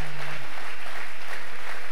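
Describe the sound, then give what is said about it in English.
A church audience applauds in praise during an evening revival service, with loud, dense clapping forming a continuous rush of sound throughout. A brief low tone sits underneath at the start. “Oh, come on, let's give the Lord a big hand tonight.”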